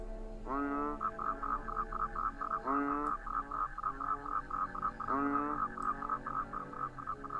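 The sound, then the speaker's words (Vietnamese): Frogs and toads croak outdoors in a steady, pulsing chorus. A few louder, rising calls stand out at intervals, with no voices. “Ở bên ngoài chỉ có tiếng cóc nhái vọng vào.”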